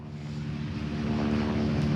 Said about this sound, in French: regardez à l'instant, vous avez un hélicoptère bombardé d'eau qui survole la zone.